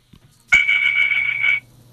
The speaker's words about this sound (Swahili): Gurumisha ama upige honi.